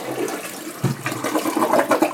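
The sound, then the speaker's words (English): A household toilet flushing: a rushing, gurgling surge of water that swells after a brief pause and churns steadily as the bowl drains. “Say you flush something down the toilet.”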